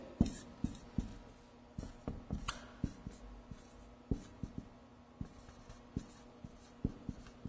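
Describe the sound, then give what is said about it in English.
Writing by hand, heard alone as many short, scratchy taps and strokes in an uneven rhythm with brief pauses between bursts. “So I'll just, I'll finish writing these here.”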